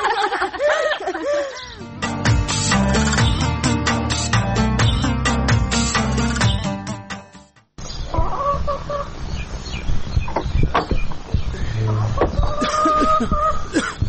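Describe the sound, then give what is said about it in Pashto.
Chickens cluck loudly while being fed dry bread, a dense and busy chorus of clucks and squawks that breaks off briefly midway, then resumes. “دلته یم، چرګانو ته وچه ډوډۍ خیشته وم.”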